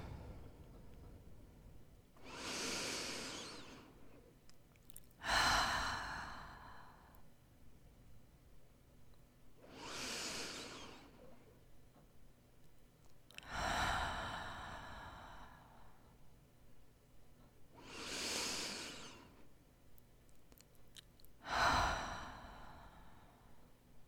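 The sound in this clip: Three slow, deep breaths, each an unhurried inhale followed by an exhale. They form six soft, airy swells at a steady, calm pace, fairly quiet and with no talking.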